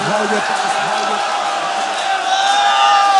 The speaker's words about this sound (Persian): تو رو خدا داد بزنید، داد بزنید، داد بزنید.